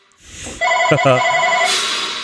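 A telephone rings with a bright, steady electronic tone that starts abruptly and holds for nearly two seconds over faint background noise.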